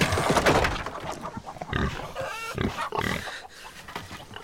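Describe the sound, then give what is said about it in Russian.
Pigs grunting and squealing in an enclosure, with many loud, irregular bursts of rough animal calls overlapping one another throughout, and no talk. “Свинюшки.”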